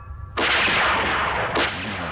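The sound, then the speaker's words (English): Gunfire in a gun battle: a sudden, loud burst of blasting noise cuts in and roars on without a break. A second burst hits about a second later and leaves a sustained, dense rumble. No voices are heard. “Gun battle.”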